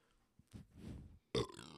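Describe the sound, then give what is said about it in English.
A low, rumbling burp lasting under a second, followed shortly by a short, sharper vocal burst. Both are fairly quiet. “burping. That was nice.”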